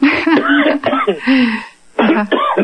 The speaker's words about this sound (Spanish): Ya bueno, está, te dio tos. Perdón, ya está, me dio tos.